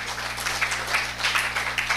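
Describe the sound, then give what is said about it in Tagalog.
A church audience claps during a sermon. The sustained, busy clapping sits over a steady low electrical hum. “Palakpakan po natin ang Lord.”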